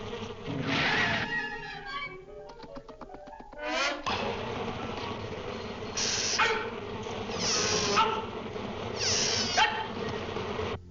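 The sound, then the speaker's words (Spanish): Angry cartoon bees of the Acme brand buzzing as a swarm, with a continuous droning hum that swells in a few louder surges over about ten seconds, alongside other varied cartoon sound effects. “Abejas furiosas marca Acme.”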